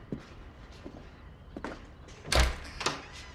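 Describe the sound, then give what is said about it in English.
A door being answered and opened: a few soft taps and bumps, then a heavier wooden thud, followed shortly by a lighter knock. “He answers the door.”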